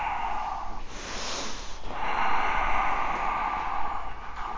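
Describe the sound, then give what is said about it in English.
Deep breathing during a yoga class. A couple of long, airy breaths in and out, hissy and fairly loud, with a short pause between them and no talking. “Breath in. Breath out. Inhale. Exhale.”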